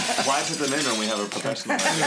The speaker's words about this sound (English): Can we have some broken glass sounds